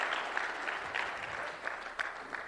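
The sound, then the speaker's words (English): Audience applause, dense steady clapping with a few sharper claps standing out, heard on its own without speech. “I don't know if that actually deserves any applause”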